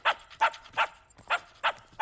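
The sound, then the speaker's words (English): A dog barks six times in a quick, even rhythm, each bark short and sharp with brief quiet gaps between, and no voices. “It's an emergency that you get rid of this dog.”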